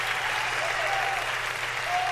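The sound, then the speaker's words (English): An audience claps at a Division 2 game announcement. The applause is a fairly faint, even wash that lasts through the whole short clip. “Everybody's clapping.”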